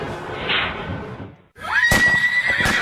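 A horse at a riding stable neighs, a loud, shrill whinny that bursts out in the second half after a steady noisy rush dies away, its high tone held and trembling, with sharp knocks alongside.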